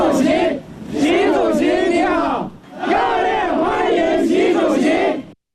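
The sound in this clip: Crowd of overseas Chinese and Chinese company representatives waving flags, shouting in unison to welcome Xi Jinping in New Delhi. Two long, loud chanted bursts are split by a brief pause before the voices cut off.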